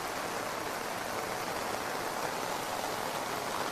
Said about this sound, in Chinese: 那这个雨量也是还是没有减小的趋势啊，一直在比较大的下。